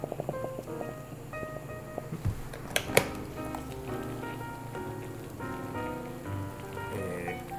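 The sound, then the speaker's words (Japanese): Hot water is poured into a cup of instant yakisoba, making a faint, continuous splashing patter that stays soft and steady throughout. “お湯入れます”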